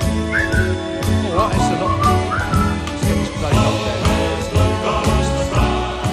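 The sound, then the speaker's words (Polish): A whistled melody carries over an upbeat band accompaniment, a bright, steady tune that runs the whole way through at a lively, even level. “No to sobie pogwizdaliśmy.”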